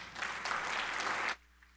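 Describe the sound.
Applause from a church audience welcoming a pastor, a dense, even burst of clapping that holds steady and then stops abruptly, leaving quiet.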